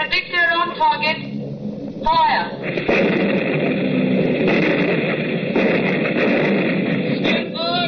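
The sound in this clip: Anti-aircraft gun fire erupts after a few seconds of voices and builds into a loud, dense, continuous roar of shots that lasts until near the end, where a voice returns.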